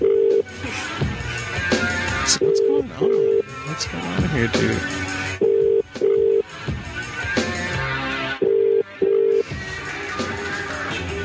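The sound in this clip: Telephone keypad tones beep as someone dials a call: six short, level-pitched beeps grouped in three pairs, spaced a few seconds apart, while people talk throughout.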